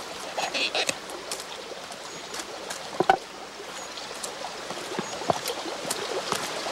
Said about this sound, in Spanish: Camina junto a uno de los muros hasta un chorro de agua.